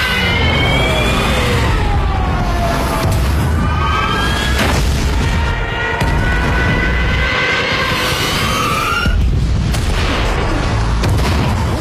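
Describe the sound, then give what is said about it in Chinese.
Explosions from German warplanes bombing a coast boom loudly and continuously for around twelve seconds, with high whining tones sweeping up and down through the dense, rumbling blasts. “话音刚落，德国战机再一次空袭海岸。”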